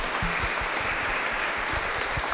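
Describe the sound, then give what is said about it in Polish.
Audience applause for a couple at a religious gathering honouring a saint, a dense, steady wash of clapping that holds at an even, loud level throughout without a break. “wielkie, wielkie brawa dla nich”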